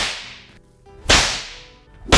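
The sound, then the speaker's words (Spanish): Whip lashes ring out as three sharp, loud cracks, each with a bright hissing tail that fades before the next strikes, spaced about a second apart. “para compensar voy a darme unos azotes, por favor, unos latigazos para que te sientas un poco más tranquila”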